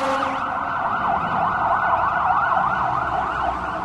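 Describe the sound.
Fire engine siren from a fire station down the street: a loud, continuous, rapidly warbling yelp that cycles up and down in pitch at a quick, even rate, with faint traffic noise underneath.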